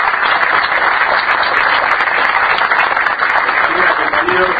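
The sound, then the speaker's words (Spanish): Audience applause at a public ceremony in Buenos Aires province, a loud, dense, unbroken wash of clapping that holds steady from start to finish, with faint voices underneath. “el licenciado Gabriel Mariotti, un aplauso para él”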